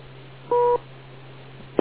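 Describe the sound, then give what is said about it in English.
A single short two-tone beep on an amateur radio net, clear and steady for about a quarter second over a low hum and faint static. “Please wait for the beep.”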